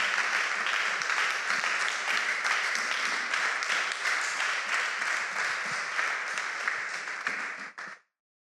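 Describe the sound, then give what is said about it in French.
Congregation applause at a French-speaking church service as a preacher is welcomed: sustained, dense clapping from a large crowd at a steady level, thinning briefly and then stopping abruptly near the end. “Alors, sous nos applaudissements, s'il vous plaît.”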